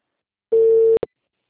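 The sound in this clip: Telephone ringing tone on a call: a single steady, mid-pitched tone lasting about half a second, followed by two short clicks, then silence.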